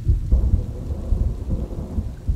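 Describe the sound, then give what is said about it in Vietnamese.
Rain splashing in through an open window vent, a dense continuous wash of drops with a deep rumbling undertone, loud and unbroken throughout. “thứ nước lạnh lẽo hắt lên mặt ông không gì khác ngoài những giọt nước mưa đang bắn vào qua ô cửa thoáng.”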